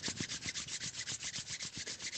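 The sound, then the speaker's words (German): Hands rubbing together briskly at the close of a guided relaxation: a soft, rapid, evenly paced swishing of skin on skin, with many quick back-and-forth strokes, faint and heard alone. “Du kannst deine Hände aneinander reiben”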